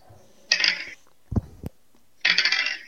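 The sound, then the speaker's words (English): Dice rattling and clattering onto a table as crossbow damage is rolled in a tabletop roleplaying game: two bright rattling rolls separated by a few sharp clicks, with no talk. “So go ahead and roll your normal crossbow damage, and then I think we agreed it was an extra 2d10 for the bombs.”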